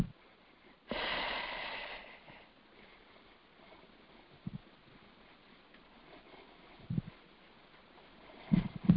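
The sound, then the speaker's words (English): A single deep breath drawn in, an airy rush lasting about a second, then near quiet with faint low noise and a few soft clicks. “All right, deep breath.”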